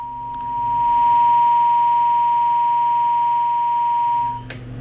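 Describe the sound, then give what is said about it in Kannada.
Tone from a dropped phone call: a steady, unbroken high-pitched note holds for about four seconds at even loudness, then cuts off abruptly. “ಕರೆ ಬಹುಶಃ ಕಟ್ಟಾಗಿದೆ ಅಂತ ಕಾಣಿಸುತ್ತೆ.”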